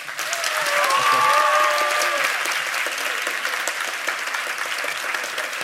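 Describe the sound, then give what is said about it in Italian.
An audience applauds the students of liceo Quadri with dense, sustained clapping that swells quickly and then stays steady and loud for several seconds. “facciamo un applausometro anche per i ragazzi del liceo Quadri. Cosa dite? Aspetta che vengono avanti, venite avanti. Mi raccomando, qua se non viene giù la sala, cioè metaforicamente, per carità. Pronti? 3, 2, 1...”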